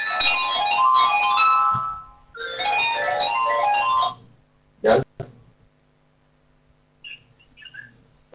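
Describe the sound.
A phone rings with an incoming call, giving two bursts of bright, chirpy melodic ringtone about two seconds each, followed by a few short, faint sounds and quiet.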